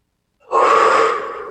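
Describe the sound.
A single deep breath, a loud airy rush that begins abruptly after a short silence, holds steady, then gradually fades.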